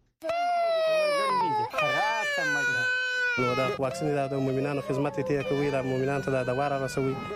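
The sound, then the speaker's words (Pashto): A child cries in Kandahar amid a ban on a vaccination campaign, a loud, high, wavering wail that sobs on and off, with a lower voice joining underneath in the second half. “رپورټ رالېږلی دی چې د یو ماشوم په ژړا پیلېږي.”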